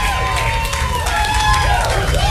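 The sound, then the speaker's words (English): A live audience applauds and cheers at an event. The crowd noise is steady and loud throughout, with voices calling out over it. “Big round of applause, ladies and gentlemen. Cheer up.”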